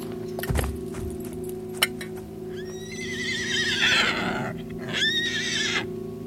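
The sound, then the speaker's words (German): A horse in a dramatized scene, trembling after its rider has fallen, gives two long, shrill, wavering whinnies, the second shorter. A few sharp knocks come before them, and a steady low hum runs underneath. “Das Ross sprang vor, blieb zitternd stehen und wieherte so schrecklich, als riefe es nach Hilfe für seinen Herrn.”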